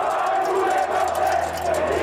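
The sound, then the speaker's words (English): A crowd shouts at Italian politician Bettino Craxi outside the five-star hotel where he lives, a dense, continuous roar of many angry voices that stays loud throughout. “The crowd shouts, Bettino, you want this money too? As they hurl coins at his car.”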